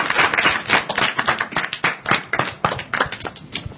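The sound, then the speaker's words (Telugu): Hands clapping at a children's quiz, a dense, irregular patter of many sharp claps from a group, sustained and fairly loud throughout with no talk over it. “Very good, very good. చప్పట్లు కొట్టండి చక్కగా.”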